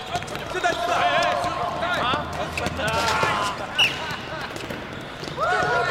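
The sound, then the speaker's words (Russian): Basketballs bounce during a game played by boys, a busy scatter of dull thuds under overlapping voices and calls. “Парни играют в баскетбол.”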